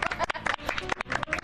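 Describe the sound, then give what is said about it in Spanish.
Audience applause, a quick, dense patter of hand claps in uneven bursts. “Muy bien, un aplauso.”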